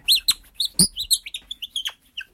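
Wooden robin call made from a small poplar ball, blown to imitate the bird: a lively run of many short, high chirps and tweets in an uneven rhythm, fairly loud, with no voices.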